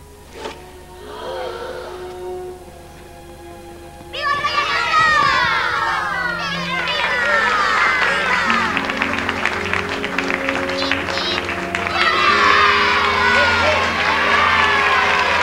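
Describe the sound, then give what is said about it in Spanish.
Children cheer and shout for a sword-raising hero in an audio drama scene. Soft sustained musical tones give way to a sudden, loud burst of excited crowd noise, with high shrieks and applause that stay busy to the end. “Los niños pasean a hombros al héroe que mantiene la espada en alto. El tumulto y la alegría hace que todos rueden por los suelos.”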